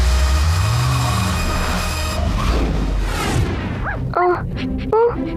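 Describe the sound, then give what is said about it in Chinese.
A cartoon rocket roars as it blasts off for Mars: a loud, broad rumble holds for about three seconds, then fades as short, high, squeaky character voices break in. “电能启动，升空发射，全速前往火星。”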